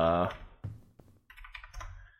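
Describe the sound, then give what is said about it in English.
Typing on a computer keyboard: a short run of quick clicks and taps, fairly faint, mixed with other tonal sounds. “sorry for the keyboard. I had to look that up.”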